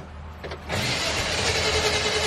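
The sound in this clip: A fully restored 1959 Chevrolet with automatic transmission is started with the key: a few faint clicks, then a sudden rise into a steady, broad running engine roar.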